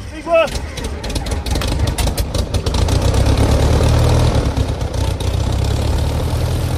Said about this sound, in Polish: Silnik pracuje na tyle głośno, że nie słyszę własnych myśli.